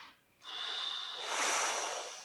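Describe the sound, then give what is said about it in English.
A person takes one long, airy inhale that swells in intensity and lasts close to two seconds before easing slightly at the end. “Take a breath.”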